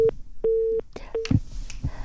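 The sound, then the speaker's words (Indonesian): A telephone busy tone after a dropped call: three short, steady, mid-pitched beeps sound at an uneven pace, mixed with faint clicks and line noise. “Sepertinya terputus ke Bapak Nirwono. Saya coba hubungi kembali ya”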